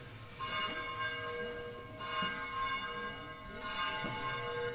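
Church bell ringing with sustained, overlapping metallic tones. The ringing is renewed by a few fresh strikes every couple of seconds and stays fairly loud and steady throughout, with no voices.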